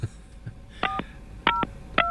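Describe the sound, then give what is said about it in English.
Telephone keypad dialing tones as someone places a call: crisp, steady beeps in three quick bursts, each made of two short tones, over a faint background hum. “You hear me dialing there”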